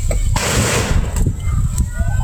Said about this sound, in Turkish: Şu anda patlıyor. Fethiye'de tur teknesi alevlere teslim oldu. Yangın patlamalarla büyüdü.